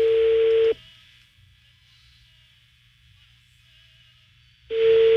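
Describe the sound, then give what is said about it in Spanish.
A phone rings out on a call to a woman who sells dog medicines, heard as a steady mid-pitched ringback tone. One burst sounds at the start and a second follows after a long quiet gap. “está sonando otra vez el teléfono de la señora que vende medicamentos para perros. Está sonando.”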